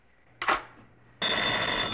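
A telephone bell rings when an operator rings back during a test call: a short clanging burst, a pause, then a longer, steady, bright metallic ring.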